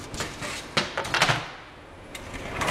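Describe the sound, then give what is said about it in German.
A laboratory chest freezer is opened. It is an ultra-low freezer holding samples at minus 81 degrees. A few faint knocks and soft clunks of the lid come through over quiet background noise. “Die Biologin muss erst geeignete Handschuhe finden, bevor sie eine der Kühltruhen öffnet.”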